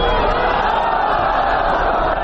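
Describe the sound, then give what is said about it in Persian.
Thousands of people chant slogans outside the sports stadium in Herat, a loud, dense, unbroken roar of many voices. “هزاران تن از باشندگان هراتی در مقابل استادیوم ورزشی هرات با دست داشتن عکس‌های از قماندانان جهادی و پرچم‌های سبز رنگ شعار دادند.”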